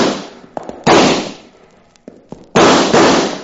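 Gunshots ring out in a western radio shootout: two loud blasts with sharp onsets and long, noisy decaying tails, separated by a few small clicks and pops.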